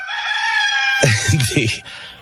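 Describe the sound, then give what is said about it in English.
A rooster crows once, loud and drawn out: a strained, harmonic cry that breaks into a rougher, throaty ending. “The Rahm Emanuel cock will crow three times again today.”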